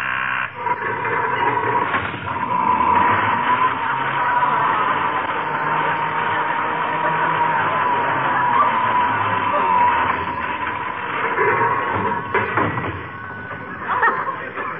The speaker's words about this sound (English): remind me to write to General Eisenhower about that elevator, man. Imagine a tank that goes straight up and down.